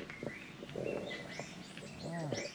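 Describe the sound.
Bird calls from a Japanese wood pigeon and a Chinese bamboo partridge: a continuous run of chirps and whistled notes at moderate loudness, with a lower, rounded call near the end.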